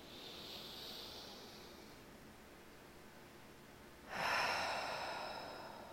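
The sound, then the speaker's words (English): A deep inhale during a guided stretching and breathing session. A soft airy hiss comes first, then a sudden, louder rush of breath that holds steady and slowly eases off near the end. “And inhale. Just one more deep breath here.”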